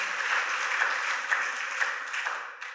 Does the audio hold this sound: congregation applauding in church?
yes